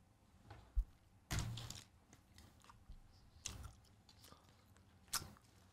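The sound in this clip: Someone chews macaroni-shaped gummies, producing faint, irregular wet bites and squelchy chews. A few louder bursts stand out from the quieter chewing.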